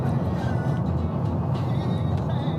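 Road noise inside a moving car as the driver changes lanes on the way to New Smyrna Beach. A continuous low rumble and engine drone stay level throughout, with no clear separate events.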